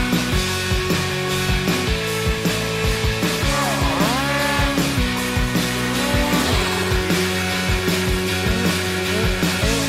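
A turbocharged snowmobile engine idles with a steady pulsing chatter, then revs in a swell around the middle, its pitch rising and falling before it settles back to a rhythmic throb.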